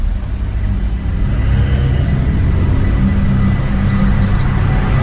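Steady low engine rumble from inside a moving car, a continuous even drone with a faint higher whir above it and no voices.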